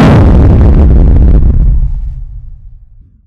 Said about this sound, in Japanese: あれこそは収録したデータを弾丸型衛星に込めて発射する、名付けてキャム砲ですよ。キャム砲撃て。